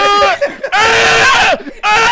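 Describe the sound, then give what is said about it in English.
A man's voice imitates a struggling spider screaming, a few bursts of high, strained, squealing vocal cries with short breaks between them. “just screaming his little spider scream”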